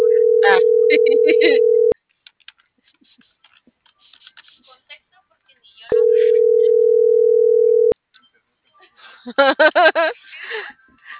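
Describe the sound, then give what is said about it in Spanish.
Telephone tones as a call is dialed: two long, steady single-pitch tones separated by a pause. A person talks over the first tone and between them, and voices follow the second. “Espérame, déjame, ando marcando.”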